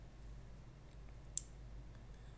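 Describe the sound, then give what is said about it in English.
A single computer mouse click, short, sharp and quiet, over a faint steady hum. “And if I click at the bottom, I can see the activities of what it's actually doing at this time.”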